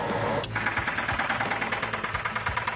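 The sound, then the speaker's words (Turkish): Knocking from the engine of a rare 1956 car with bearing failure; the engine was made for only one year and has hand-made pistons. After a brief start, a steady, rapid run of sharp metallic knocks plays over a low idling hum. “Kesinlikle bu ses yatak arızasına benziyor. Bu motorun komple revizyona girmesi gerektiği anlamına geliyor.”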